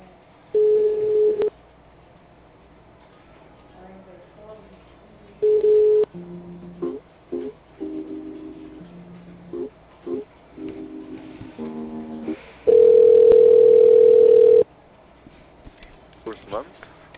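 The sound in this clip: Telephone keypad tones dial an extension after a main number, followed by line tones. Several short, clear electronic tone bursts are spread over the call, and a long steady tone comes near the end.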